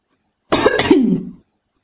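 A person coughs after choking on hot tea that went down the wrong way. One short, harsh, throaty cough burst lasts under a second, then silence.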